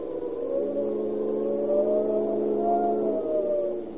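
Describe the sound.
A car engine revs and pulls away, its droning whine swelling and shifting in pitch as it accelerates, loud and steady for several seconds before easing off.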